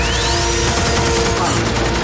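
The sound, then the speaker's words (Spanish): Loud, sustained machine gun fire from a sophisticated but rudimentary, traditional-looking firearm wielded by a warrior inside a temple, shooting bullets nonstop as a dense, unbroken rattle with no pause across the whole stretch. “Empuña una ametralladora que comienza a disparar balas sin cesar.”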